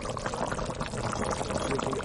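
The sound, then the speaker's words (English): Stew bubbling in a pot set on a solar cooker dish lined with aluminum tape, with the pot held on a metal stand: a dense, steady liquid gurgle that runs without pause at an even level. “Soon, a stew is bubbling.”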